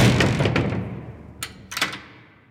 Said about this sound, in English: My jail cell locked shut.